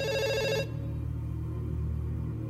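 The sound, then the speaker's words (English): A reception telephone rings with a bright, buzzing electronic trill that cuts off abruptly after a moment, leaving only a low steady hum behind. “Okwe, having ignored him, is shaken once more by the ringing reception phone.”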